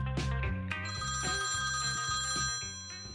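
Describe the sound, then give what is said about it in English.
A telephone rings with an incoming call to a listener hotline: a bright, repeating electronic trill that pulses in a steady rhythm and stays loud throughout, with no talking. “Looks like we've got our first caller.”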